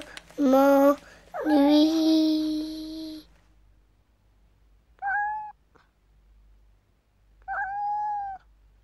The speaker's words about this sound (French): Miaou, miaou, mon petit chat, pourquoi es-tu si triste?